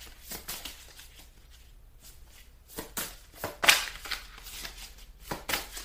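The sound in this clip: Tarot cards being shuffled and one drawn: many soft, papery swishes and light flicks in an irregular rhythm, mostly quiet, with a few sharper card snaps standing out.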